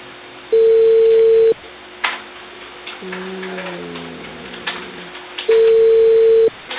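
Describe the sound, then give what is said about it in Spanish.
Telephone ringing tones play while a call is being placed: two long, steady single-pitch beeps about four seconds apart. Thin line noise and faint tonal blips fill the gap between them. “A ver, estoy llamando.”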